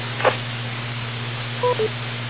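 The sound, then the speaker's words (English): Cell phone keypad tones: two short electronic beeps close together, heard over a steady low hum with no talking. “Hold on. I have to answer a cell phone.”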